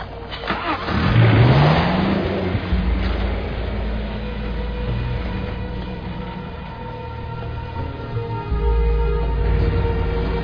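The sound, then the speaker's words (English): A car engine revs and accelerates on a drive north through Tuareg country toward the flatlands and the Algerian border. Early on the pitch climbs in a rising whine, then settles into a steady mid-pitched drone that continues throughout. “We're gonna drive north about 3 hours to hit the flatlands.”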